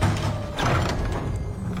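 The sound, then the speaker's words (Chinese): A locked bedroom door being rammed open during a frantic break-in, heard as muffled low thuds and rumbling at a fairly steady loudness throughout, with no voices. “快快快，撞门！”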